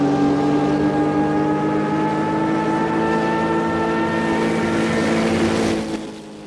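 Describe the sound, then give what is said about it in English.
An airplane engine roars in a steady, loud drone with strong sustained tones as the plane spins into a nosedive, then drops off near the end. “as the Major puts the plane into a spinning nosedive.”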